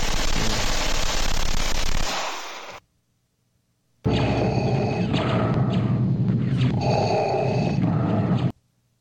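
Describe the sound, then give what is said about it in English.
Gunfire: dense, rapid bursts of harsh shots fill two loud stretches, the first fading out and the second starting abruptly after a few seconds of silence. “Can you hear the guns going in the background from wherever that clip was from?”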